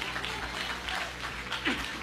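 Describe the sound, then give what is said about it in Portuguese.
A church audience claps for Jesus, a steady, even patter of many hands at a moderate level with no clear pauses. “Bate palma para Jesus.”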